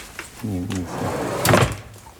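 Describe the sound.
A drawer holding a camera is pulled open, giving a short rattling scrape partway through, with people talking before and around it.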